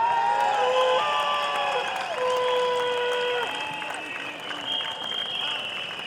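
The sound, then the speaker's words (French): A crowd at a street demonstration against pension reform applauds and cheers in a dense, steady wash of clapping that stays loud throughout. “Aujourd'hui, elles sont là et on peut les applaudir.”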